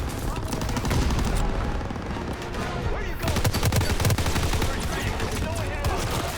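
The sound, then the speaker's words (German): Video game gunfire sounds as players shoot through smoke: dense, rapid bursts of automatic fire crackle continuously, layered and unrelenting, with heavier booms mixed in. “Ey, die schießen halt durch.”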